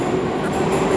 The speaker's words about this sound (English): sorry for the noise in the background.